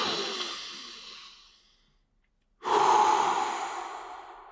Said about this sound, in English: Do one last breath with me before we end this video. All the way in with force